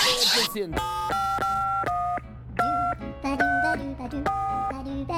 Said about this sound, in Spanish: Vamos a llamar al presidente, ¿eh? Le voy a marcar de inmediato, amigo.